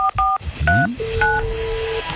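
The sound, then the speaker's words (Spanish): Telephone dialing tones from a call placed to a listener on a phone line: a few crisp two-tone beeps in quick succession, then one long steady tone, a shorter beep and a faint low sweep, all loud and with no talk. “le intentamos marcar a Adriana. Aquí estamos conectando, Adri.”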